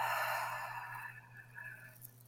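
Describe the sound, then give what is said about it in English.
A long breath exhaled through the mouth at the start of a guided breathing exercise, one soft airy rush that fades over about two seconds over a steady low hum. “And we'll completely exhale all of our air to begin. You can breathe out through the mouth,”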